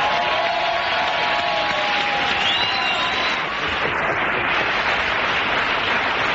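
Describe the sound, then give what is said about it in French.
An audience applauds and cheers to welcome singer Pascal Obispo. The dense clapping and crowd noise hold a steady, loud level throughout, with only a slight dip near the middle. “Merci d'accueillir, de faire un triomphe à Pascal Obispo.”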